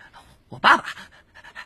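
Panting from a Tibetan mastiff: quick, breathy huffs with a single louder, sharper yelp-like burst in the middle, then more soft rhythmic panting.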